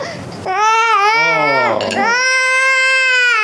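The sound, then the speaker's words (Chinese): An infant cries in a loud, sustained wail full of bright harmonics, breaking into a second long wavering cry after a brief dip, following a short quieter lead-in. “不哭了，哎，抱抱抱着啊。”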